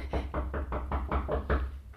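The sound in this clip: Knocking on a door in a dramatized scene, with guards demanding it be opened on a king's order: a rapid, even series of heavy, dull knocks repeating steadily for about two seconds.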